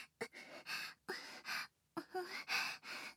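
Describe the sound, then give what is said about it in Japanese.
Heavy, ragged breathing, a quick, uneven run of soft breathy gasps and exhales, some with faint voicing, quiet throughout. “どんどん息遣いが荒くなってますね。”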